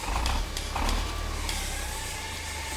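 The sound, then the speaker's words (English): A song-generator machine starting up in a workshop, with a few sharp mechanical clicks and creaks early on that settle into a steady, low whirring hum. “Well, let me fire up the song generator.”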